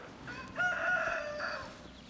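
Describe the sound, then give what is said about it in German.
A rooster crows once, a faint drawn-out call with a short trailing tail, heard alone against quiet background. “Wegen diesem Hahn.”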